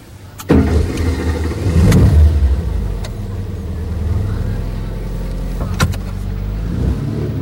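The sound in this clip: A car drives off, its engine running steadily throughout, with a few sharp clunks near the start and again toward the end.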